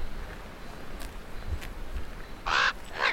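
Two harsh, crow-like caws from a bird in wet woodland after rain. They are loud, rasping bursts near the end, with a faint, steady background hiss before them.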